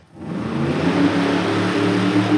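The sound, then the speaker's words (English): A monster truck engine runs on a dirt arena, building within a fraction of a second into a loud, steady, low rumble that holds throughout. “the green, grimacing T-Rex that's doing wheelies and donuts on the dirt arena”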